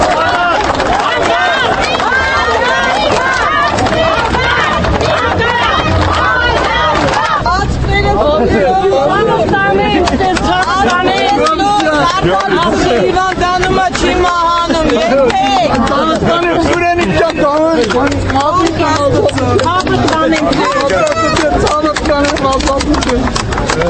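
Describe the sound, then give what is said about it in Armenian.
Crowd in a courthouse yard greeting released deputies with cheers and applause, a loud, unbroken babble of many excited voices over dense clapping that carries on throughout. “Արդեն դատարանի բակում մեծ թվով մարդիկ ծափահարություններով ու բացականչություններով դիմավորեցին ազատ արձակված պատգամավորներին”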